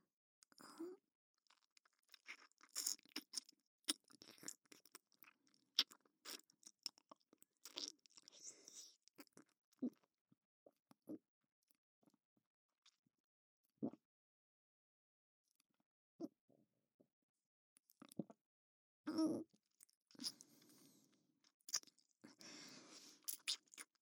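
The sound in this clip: Crunchy chewing of food while eating, with many irregular bites and mouth sounds in uneven bursts and short pauses, moderately loud and without talk.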